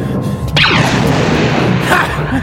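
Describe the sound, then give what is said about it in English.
Star Wars blaster shot fired at a door lock: a sharp burst with a quick falling electronic zap, followed by a second burst near the end, over loud continuous noise. “Come on, Chewie! Hold it! Hold it! We gotta shoot the lock!”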